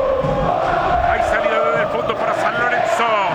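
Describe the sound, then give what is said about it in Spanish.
San Lorenzo supporters cheer and chant at a football match against Boca, a dense, loud crowd roar that never lets up, with a commentator talking over it. “Alienta el público de San Lorenzo.”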